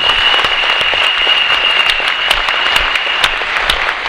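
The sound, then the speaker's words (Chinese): Audience applause at a motivational speech, a loud, dense and steady clapping from many hands that continues throughout without talking. “掌声要拍就拍，大声一点。”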